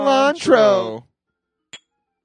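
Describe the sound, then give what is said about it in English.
A single bright clink of glasses in a toast before a shot of Jameson Irish whiskey, sounding briefly after a moment of talking. “listeners, we're about to take a shot, so raise your glass.”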